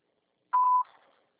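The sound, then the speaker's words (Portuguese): A single voicemail recording beep, a clean high-pitched tone lasting about a third of a second with a short fading tail, fairly quiet and alone. “Após o sinal, grave sua mensagem.”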